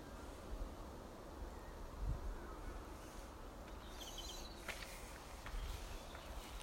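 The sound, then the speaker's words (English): Insects buzzing outdoors: a faint, steady, continuous drone with a few soft low bumps and no talking. “Loads of insects around today, amazing number.”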